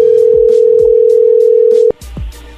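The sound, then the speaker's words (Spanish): A telephone call rings out unanswered. A loud, steady tone holds for nearly two seconds, cuts off abruptly, and a few faint low thumps follow. “Parece que no está contestando Kevin. Bueno, vamos a marcarle otra vez.”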